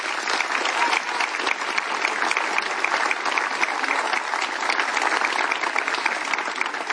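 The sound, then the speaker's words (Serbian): Audience applause at a song festival, a dense, even wash of many hands clapping that holds at a steady level for the whole stretch, with no single voice standing out. “a to je meritalo jedan veli aplauz seh vas”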